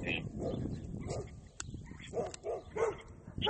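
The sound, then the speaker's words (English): Dogs bark outdoors on a windy walk. A few short, sharp barks and yips come in a quick cluster near the end, mixed with whimpers over steady wind noise. “there's dogs barking at us.”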